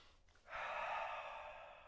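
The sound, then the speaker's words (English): Deep breath taken while seated during a calming breathing exercise: a soft, airy rush that begins after a brief quiet moment and holds steadily for over a second, fairly faint. “you take a deep breath in right mm-hmm”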